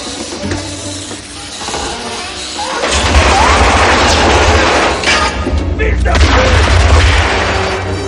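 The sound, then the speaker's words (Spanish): Loud gunfire and heavy booms from a 1988 action film scene in Die Hard, with covering fire as a man leaps toward another in a ventilation shaft by extractor fan blades. The sound is dense and continuous, swelling louder after the first few seconds. “Cubierto por el fuego de su compañero, Carl salta hacia John.”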